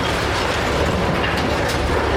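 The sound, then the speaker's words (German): Excavator loading blasted basalt boulders onto a dump truck at a large basalt quarry in Homberg-Ohm, Vogelsbergkreis, giving a steady, dense grinding and rattling rumble that runs unbroken at an even loudness throughout, with no voices. “Ein Bagger lädt gerade die abgesprengten dicken Brocken auf einen Kipplaster.”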